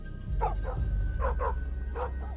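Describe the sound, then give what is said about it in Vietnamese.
Dogs bark across a village, among them a black dog in a yard: several short, fairly faint barks, mostly in pairs, over a low steady hum. “Con chó mực ở ngoài sân cũng chĩa sang ấy mà sủa lên inh ỏi. Bầy chó khắp cả làng như phụ họa mà sủa theo.”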